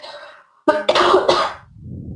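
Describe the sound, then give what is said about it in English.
A short burst of coughing from a person who pauses mid-sentence to clear their chest. The coughs come as a few loud, harsh bursts close together, followed by a softer rough tail. “I just need to cough.”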